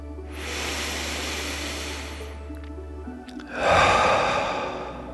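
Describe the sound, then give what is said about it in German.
Deep breathing, in through the nose and out through the mouth: one long, hissing inhale followed after a pause by one fuller, rushing exhale that fades away. A low steady hum runs under the inhale, and no one speaks. “Ein durch die Nase, aus durch den Mund.”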